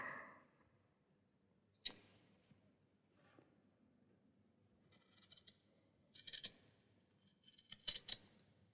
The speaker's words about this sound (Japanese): 時々ね、ハサミが乳首に当たって、ヒヤリとするの。